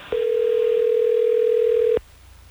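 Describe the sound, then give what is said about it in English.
A steady, single-pitched telephone dial tone plays alone for about two seconds as a call is placed, then cuts off abruptly. “let's get Chris on the phone so we can get the truth.”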